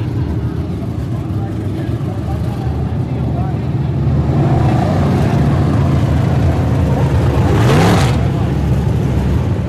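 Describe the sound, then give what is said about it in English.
Stock cars and modifieds racing at a speedway, a loud continuous engine roar with a brief rising whoosh as a car passes close near the end. “About 25 to 30 nights of racing is held at this speedway each year. The two divisions, sanctioned by the International Motor Contest Association, include stock cars and modified.”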